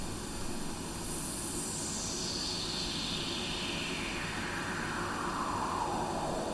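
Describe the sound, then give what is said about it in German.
Pink noise runs through a resonant filter: a steady, full-band hiss with a whistling resonant peak that sweeps smoothly downward from bright to mid pitch over several seconds. “Nein, es ist sogar schon das Pink Noise, denn das weiße Rauschen klingt nochmal ein bisschen heller. Und wenn wir dieses Rauschen jetzt zum Beispiel auf einen Filter legen,”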